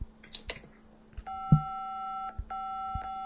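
A phone rings with an incoming call: a steady electronic tone comes in two long bursts separated by a short gap. A few low thuds and handling knocks come before and during the ringing.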